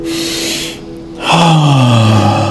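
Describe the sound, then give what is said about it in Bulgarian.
Deep breathing during a breathing exercise: a long airy inhale, a brief pause, then a louder exhale with a falling voiced sigh. “Две-три по-дълбоки вдишване, издишване.”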